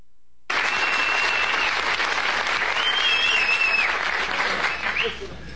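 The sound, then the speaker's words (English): A studio audience on Johnny Carson's show rises for a standing ovation for the Apollo 13 crew in 1970. Loud, sustained applause begins abruptly and continues evenly, easing slightly near the end. “that is the first time since I've been doing this show in 7.5 years that I've seen an entire studio audience get to their feet and applaud.”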